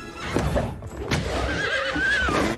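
An unruly horse neighing, with a high, wavering whinny that rises out of a loud, continuous rough noise in the second half.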